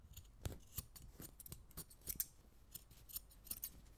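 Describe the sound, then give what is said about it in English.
Scissors cut off a costume in a long, steady series of crisp snips, quiet and evenly spaced, with no voices. “First, let's cut that ridiculous costume off.”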